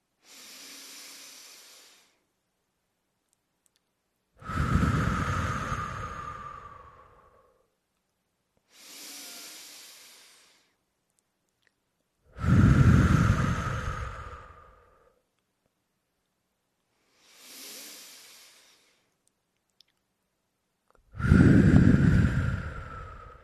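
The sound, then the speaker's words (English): Slow breathing during a calming exercise, in through the nose and out through the mouth. Three soft, hissing inhales alternate with three louder, fuller exhales, each lasting a few seconds with pauses between. “Breathe in through your nose and out through your mouth.”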